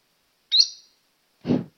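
A caged bird calling: a short, high, piercing chirp, then after a pause a harsher, noisier squawk. Two separate calls with nothing else around them.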